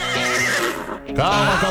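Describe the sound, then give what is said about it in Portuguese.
A hungry, tied-up horse whinnies with a wavering, quivering pitch. The call is loud and steady through most of the short stretch, with a brief dip before a final rising whinny. “O cavalo amarrado com uma fome do demônio.”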